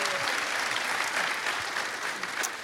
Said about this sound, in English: Let's put your hands together. Let's welcome our panel here today.